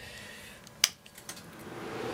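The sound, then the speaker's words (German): Cinema projection room equipment switching on: a sharp switch click, then a few faint clicks, and a low whirring hum that slowly builds toward the end as the machines start up. No one talks. “Ja, jetzt hört man hier die ganzen Geräte anlaufen.”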